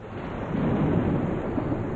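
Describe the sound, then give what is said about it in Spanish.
Thunder during a storm: a steady, dull, low rumbling roar that swells slightly and holds for about two seconds, with no voices. “Eso sí es un trueno.”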